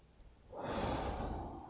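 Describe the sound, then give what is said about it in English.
A strong, deep breath drawn in during a guided breathing exercise: a soft, airy inhalation that swells after a quiet half-second and holds steady to the end. “Strong breath in, nice and strong.”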